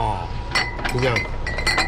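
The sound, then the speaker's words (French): Glass bottles of Kaoliang, a 58-degree local liquor, clinking on crowded shop shelves, with bright chinks heard beneath people talking. “nous montre ses bouteilles de Kaoliang, l'alcool local à 58 degrés. Les étagères de sa boutique en sont pleines à craquer.”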